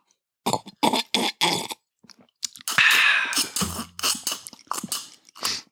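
Sipping and swallowing from a drink: a few short, regular slurping gulps, then a longer noisy rush and a low rumbling, burp-like sound, loud with no talk.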